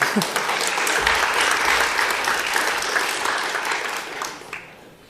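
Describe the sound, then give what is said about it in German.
An audience applauds with dense, continuous clapping that holds steady for several seconds and then gradually fades toward the end. “Dann vielleicht noch mal einen Applaus zum Anfang.”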